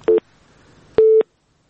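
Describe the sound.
A telephone busy signal follows a cut-off call: two loud, steady mid-pitched beeps with a short gap between them, the second beep lasting longer than the first, then silence.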